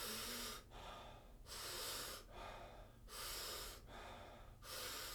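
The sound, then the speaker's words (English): Soft, partial exhales through the nose in a breathing exercise, each letting out only about a third of the breath. Many quick breaths repeat in a steady rhythm, with brief pauses between them and alternating louder and softer strokes. “And when you exhale, it's a soft exhale. It's not a full exhale. Only let about a third of the breath out. It'll sound like this.”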